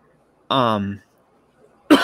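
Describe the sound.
A cough from a piece of almond caught in the throat: a rough, voiced throat sound lasting about half a second, then quiet, then a sharp, loud cough burst at the very end.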